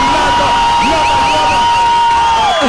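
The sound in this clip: Loud crowd cheering with whoops and high shouts welcoming a performer at a radio station event. The cheering is steady throughout, with a sustained tone beneath it and a drop in level right at the end.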